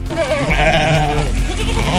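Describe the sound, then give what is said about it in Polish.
Sheep bleating in the streets of Zakopane during a traditional flock drive of several hundred sheep, with a loud, wavering bleat standing out over a dense bed of overlapping animal calls and crowd noise. “Tłumy turystów i setki owiec na ulicach Zakopanego.”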